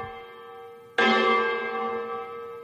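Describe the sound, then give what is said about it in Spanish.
An automatic church bell rings in a small village: one loud, sudden strike blooms into a long, shimmering ring that slowly fades, following the fading hum of an earlier stroke. “Alcalde, ha ganado el sí y sí a mantener estas campanas incluso por la noche.”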